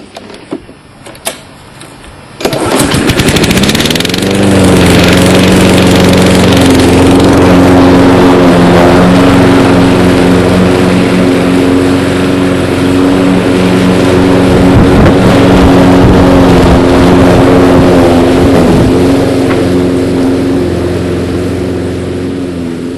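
A small engine is started with the carburetor choke applied: a couple of faint clicks, then it catches and runs steadily and loudly for about twenty seconds with a constant droning hum.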